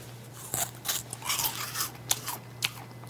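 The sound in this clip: Crunchy bites and chewing of a low-calorie snack. Several crisp crunches come in an irregular rhythm over a faint steady hum, with no talk.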